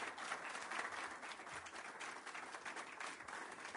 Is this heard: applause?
yes